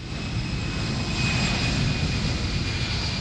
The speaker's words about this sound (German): Wenn ein Airbus oder eine Boeing vom Flughafen München zum Langstreckenflug abhebt